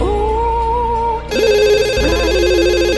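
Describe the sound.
An incoming call rings on a telephone line with a loud electronic ringtone that repeats in a steady pattern over music.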